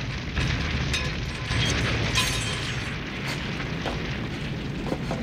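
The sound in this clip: A car explodes in a ball of flames in a movie scene, heard as a loud, sustained roaring rumble with scattered crackles and bursts throughout.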